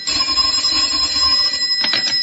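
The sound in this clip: A telephone ringing with a bright, metallic bell tone that sounds continuously and loudly, with a brief extra burst of ringing near the end and no talk.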